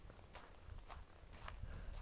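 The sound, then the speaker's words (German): Faint footsteps of a person walking outdoors at night past a police station: a few soft, steady steps over a low background rumble. “ich laufe gerade an der Polizeiwache vorbei”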